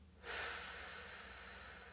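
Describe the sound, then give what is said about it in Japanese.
A person breathes out slowly and deeply during a relaxation breathing exercise, making one long airy hiss. The hiss starts abruptly and then fades gradually over a couple of seconds. “もう一度吸ってゆっくりたっぷり吸って吐きます”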